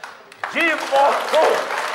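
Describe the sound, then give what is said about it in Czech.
Audience applause during a stage revue sketch: a soft wash of clapping swells up after a brief quiet start and carries on beneath voices that talk loudly over it. “A já si myslím, že mu všichni zatleskáme.”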